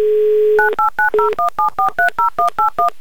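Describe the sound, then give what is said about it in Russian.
A telephone dial tone gives way to a rapid, evenly spaced string of about a dozen touch-tone beeps as a phone number is dialed. The tones are crisp and loud, with no voices. “Давайте прямо сейчас ему и наберем.”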